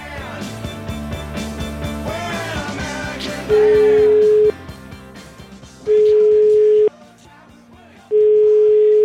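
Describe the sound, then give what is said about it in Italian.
An outgoing telephone call rings back with three long, steady, mid-pitched tones, evenly spaced with short silences between them, after a stretch of music at the start. “Chiamiamolo, vai.”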